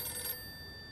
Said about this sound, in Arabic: بنتي يلا ردي على التليفون. ردي شوفي مين.